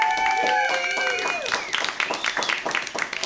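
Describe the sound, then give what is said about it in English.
At an open mic night, an audience bursts into dense applause after a voice, the crowd's clapping carrying on steadily to the end. “So round of applause for Mutiny Radio real quick.”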